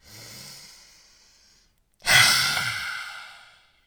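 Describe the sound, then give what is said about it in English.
A deep breath in and out during a guided breathing exercise: a soft, drawn-out inhale, a short silent pause, then a louder, breathy exhale that slowly fades. “Ready? Take a deep breath in.”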